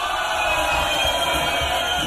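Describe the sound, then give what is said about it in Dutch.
Audience cheering for the Dutch Boys, a loud, unbroken roar of crowd voices that holds steady throughout. “Namens Radio Continu een waanzinnig groot applaus. De Dutch Boys!”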